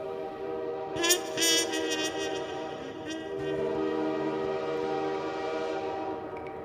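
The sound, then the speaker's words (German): Train horn at a railway station as a train is about to depart. A few short, bright horn blasts sound early, followed by a steady droning hum with a low sustained tone. “Hier bin ich also. Der Zug fährt gleich ab.”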